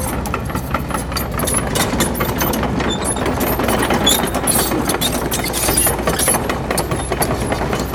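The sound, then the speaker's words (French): A heavy excavator engine runs steadily while the machine works to lift and free a stuck vehicle, a loud, even, rumbling drone with faint rattling and no voices. “Donc la pelle va intervenir par le bas, il va falloir qu'on soulève le véhicule.”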